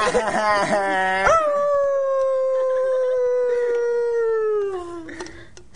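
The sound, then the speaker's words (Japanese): A person imitates a dog howling, giving a few short yelping cries and then one long, drawn-out howl that slowly sinks in pitch before fading. “犬が泣いたね。 あ、すみません、あのちょっとあのなんか泣きすぎて今犬になっちゃいました。”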